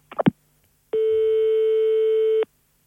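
Telephone tones as someone phones the police: a quick cluster of keypad dialing tones, a short pause, then one long, steady, even tone that holds for about a second and a half before cutting off.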